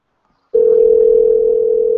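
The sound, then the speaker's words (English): A telephone dial tone begins after a brief silence and holds as a single loud, steady hum at one pitch while a call is dialed. No one talks. “Okay, we're dialing.”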